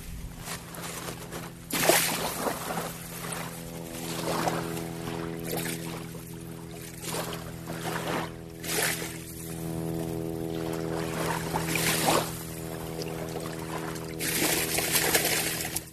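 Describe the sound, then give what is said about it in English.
Water sprays in a few short, splashy bursts as a dog shakes itself off after swimming in the sound at a driftwood beach in Tacoma, set against a faint, steady low drone. “And that was just my dog shaking off the water”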